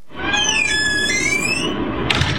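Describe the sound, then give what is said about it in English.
A child squeals in a played recording, enjoying himself: one long, high-pitched squeal that wavers up and down over a noisy background, followed by a brief sharp burst near the end. “There's some high-pitched squealing at one point because he was just enjoying this also very much.”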